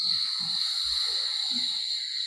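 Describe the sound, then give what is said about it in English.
Slow, deep breathing in and out with eyes closed during a guided calming exercise: a few soft, low breaths under a steady high hiss. “Eyes are closed, breathing in like that, and out.”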